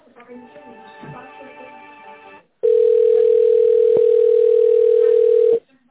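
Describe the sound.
Telephone line tone during a call transfer: a loud, steady single-pitched hum lasting about three seconds, preceded by a quieter stretch of faint, layered tones.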